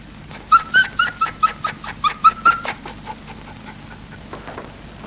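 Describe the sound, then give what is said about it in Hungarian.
A dog pants and whimpers in a quick, rhythmic run of many short, high, whiny breaths. The breaths grow softer and more spaced toward the end, with no voices. “Megint ez a randa kutya. Vihetem sétálni.”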